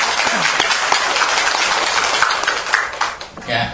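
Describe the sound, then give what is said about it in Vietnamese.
An audience applauds, a busy, crackling clatter of clapping that holds fairly loud and then tapers toward the end. Some voices can be heard mixed into the clapping. “Thêm một lần vỗ tay mới cho 5 người.”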